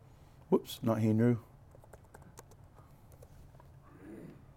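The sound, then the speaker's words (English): Typing on a computer keyboard to enter a Hebrew search in Bible study software: a brief spoken phrase comes first, followed by a few sparse, sharp key clicks at an irregular pace, then quiet. “So like if I type in this right here, and I type in Hebrew,”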